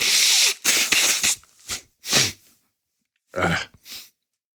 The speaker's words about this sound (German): Ich sage euch jetzt nicht, woran ich mich gerade geschnäuzt habe, weil ich kein Taschentuch hatte.